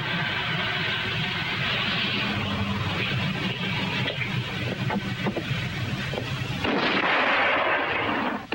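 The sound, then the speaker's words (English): Artillery and tank gunfire in a desert battle between German panzers and Allied tanks, a continuous roaring rumble broken by scattered sharp blasts, swelling louder toward the end. “Meanwhile, the North African desert erupts in a firestorm as German panzers and Allied tanks face off against each other.”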